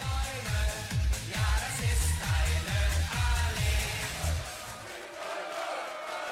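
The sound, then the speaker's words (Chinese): Football fans chanting "Allez allez" in a massed, rhythmic crowd chant with many evenly repeated pulses, thinning out toward the end. “德国队球迷最喜欢唱的歌也是阿雷阿雷，所以作为外国球迷，在欧洲想要为喜欢的球队加油，请重复这个关键词阿雷阿雷。”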